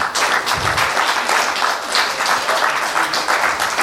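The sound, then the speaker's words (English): Applause from a church audience: dense, steady clapping from many hands, loud and continuous for the whole stretch, with no talk over it. “Can we just give Jesus a clap, please?”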